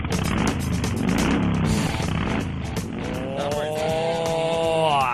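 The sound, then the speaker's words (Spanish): A Harley-Davidson motorcycle engine roars loud and continuous, its throaty rumble holding steady before the revs climb in pitch toward the end. “Qué maravilla, ¿verdad? Cuando suena un motor de una Harley Davidson, es que todo se vuelve de color de en rosa.”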